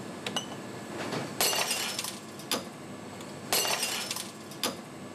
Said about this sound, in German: Wir schlagen 5-mal und jedes Mal müssen wir die Flasche um 45 Grad drehen. Gleichzeitig wird das Gewicht mehrfach erhöht.